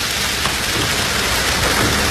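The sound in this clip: Steady rain pours down in a dense, continuous hiss that stays loud and even throughout, with no voices.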